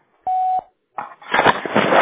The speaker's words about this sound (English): Please leave your message after the beep.